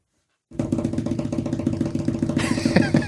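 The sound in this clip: A drum roll for a giveaway winner announcement: a loud, rapid, steady roll with a low pitched tone that starts suddenly and holds for about two and a half seconds. A bright, crash-like wash joins near the end.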